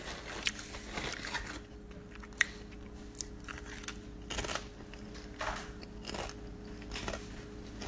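Someone bites into an untoasted snack and chews it. Quiet, crisp crunches come at irregular intervals, with one sharper snap, between softer chewing sounds.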